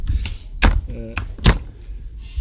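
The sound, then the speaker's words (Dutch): Dull thuds of a lid shutting on a light, self-developed foam cargo bike box: a few soft knocks over about two seconds, with a brief voice in between. “Eh, deze box hebben we zelf ontwikkeld. Hij is heel licht. en wat je goed kan zien, misschien is dat leuk om te zien ook op beeld. Ik doe hem even dicht.”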